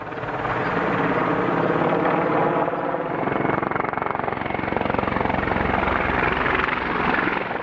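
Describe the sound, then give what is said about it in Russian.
A Mi-24 attack helicopter's rotor rumble in combat: a loud, continuous chopping drone that holds steady throughout with a dense low throb. “сквозь стрельбу, я отчетливо расслышал вертолетный рокот. «Черт возьми! Да это же наш Ми-24! Прилетели!»”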